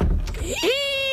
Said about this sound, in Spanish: Si tu puerta suena así,